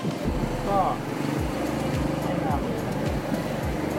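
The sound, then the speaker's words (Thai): Low, steady engine rumble of a ferry boat crossing the river to Ko Kret, a droning hum with gentle wavering that stays even throughout. “เป็นเรือข้ามฟากอ่ะแต่เดียวก็ถึงเลยเหรอ”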